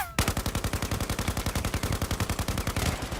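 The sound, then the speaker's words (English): Rapid automatic gunfire used as a radio-play sound effect, a loud, unbroken string of many sharp, evenly spaced shots in a fast, steady rhythm that runs almost the whole time, with no voices. “The shots came from somewhere on their right.”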